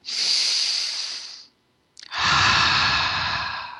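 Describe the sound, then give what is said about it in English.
Two deep breaths during a guided relaxation: a long, airy hissing draw of air, a short silence, then a fuller, breathier release that runs to the end. “close your eyes. A few deep breaths that go right through your entire torso.”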